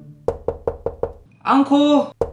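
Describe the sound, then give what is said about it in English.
Knocking on the door of a small white countryside house: five quick, evenly spaced knocks, then a loud shouting voice, then one more knock. “with full of spirit, Adit knocked at the door.”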